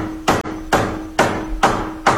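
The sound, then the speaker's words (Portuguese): Loud, sharp strikes from a Vonder hammer, five hits in an even rhythm, each with a bright ringing decay, over a faint steady hum between blows. “Você percebe que até um martelo ele chega mais leve. Eu aceitaria uma martelada na cabeça se fosse com o Vonder.”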